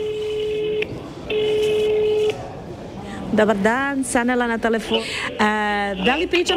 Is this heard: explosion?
no